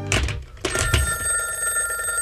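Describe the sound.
A telephone rings while an important call is awaited: a few loud, sharp bell bursts followed by a sustained ringing tone that lingers to the end.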